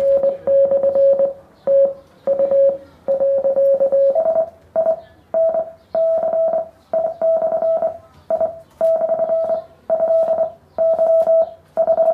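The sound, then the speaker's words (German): A Morse code signal of translated love letters, heard as a steady mid-pitched beep keyed in many long and short pulses with an uneven rhythm over a faint hiss. “Und er hat einfach die Liebesbriefe zwischen ihm und seiner Freundin in Morsezeichen übersetzt.”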